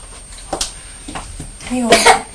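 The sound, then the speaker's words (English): A young child coughs a few times in short, rough bursts, the last one running into a brief voiced sound; the coughing is fairly loud and irregularly spaced. “You've got a cough, haven't you”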